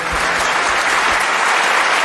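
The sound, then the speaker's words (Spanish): Applause from an audience greeting a guest, a dense, steady patter of clapping hands that stays loud and even from start to finish. “Aplauso para Sergio del Molino, por favor.”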